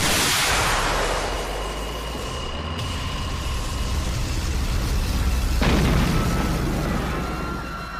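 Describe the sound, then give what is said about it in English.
A magic spell blast fires in a video game: a loud, broad burst opens into a sustained roaring rush, and a second surge hits about two-thirds through before the sound slowly fades. “did that spell blast just fire out of your eye socket?”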